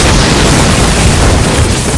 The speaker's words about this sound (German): Plötzlich verfärbte sich das durchsichtige Glas, grüne und rote Blitze züngelten sich aus dem Inneren, ließen die Kugel immer heller erstrahlen, um im nächsten Augenblick zu explodieren.